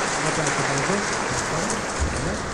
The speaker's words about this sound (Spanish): el público aplaude.